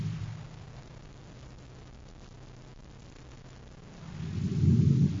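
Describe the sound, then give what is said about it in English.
Deep rumbling roar of a volcanic eruption, with hot lava tearing up trees and pushing rocks along. A steady low rumble swells louder toward the end, with no voices. “the hot lava, it's tearing up the trees and pushing rocks along.”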